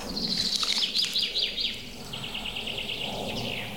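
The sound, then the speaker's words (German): High, thin goldcrest calls in quick, rapid series, faint against a steady outdoor hiss and low rumble, with more high twittering phrases later. “Oh, da war ein Goldhähnchen.”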